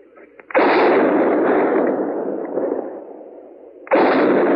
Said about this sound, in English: What in the world is he shooting at now?